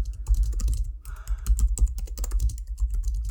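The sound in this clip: Rapid typing on a computer keyboard: many quick keystrokes clatter in an uneven rhythm, with brief pauses between bursts and no talk.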